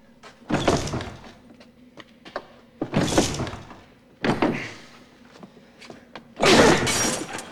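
A barred door is shouldered and forced open: four heavy, thudding crashes come in separate bursts with pauses between them. Each impact carries a rattling, splintering edge and then fades.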